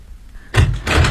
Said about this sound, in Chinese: 快把门关上。